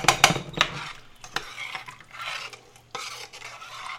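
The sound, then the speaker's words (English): Pot and utensil clatter as rice and mung beans go into a pot coming to a boil: a few sharp metallic knocks at the start, then a steady bubbling hiss that swells and eases. “Okay, now that's coming to a boil. I'm just gonna add the rice and mung beans. So we're boiling now”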